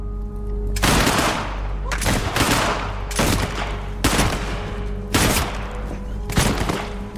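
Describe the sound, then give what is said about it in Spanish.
Rifle volleys from a firing squad in a radio drama: six loud, sharp cracks about a second apart, each with a ringing decay over a continuous low rumble. “Uno alza un fusil y uno a uno los demás hacen lo mismo. ¡Honor y patria! ¡Mátenlo!”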